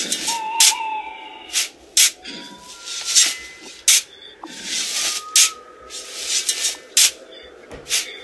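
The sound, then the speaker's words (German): Digging in the ground of a grave: many irregular bursts of gritty scraping and rubbing as soil is dug and shifted, some short and sharp, others longer hissing scrapes, with brief quiet gaps between them. “Ich werde jetzt anfangen zu graben.”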